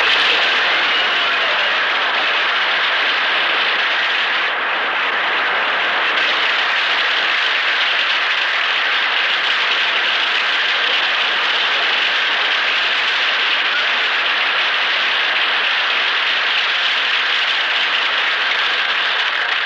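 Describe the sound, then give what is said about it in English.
Applause from an audience of servicemen greeting a guest's introduction at a show: a long, loud, unbroken roar of clapping that holds steady for about twenty seconds. “he got more applause than we did.”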